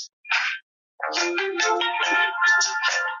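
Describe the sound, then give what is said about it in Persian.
A phone ringing with an electronic ringtone: a brief opening beep, a short pause, then a bright melodic run of quick tones that plays for about two seconds. “معذرت می‌خوام، من این تلفن رو قطع کنم.”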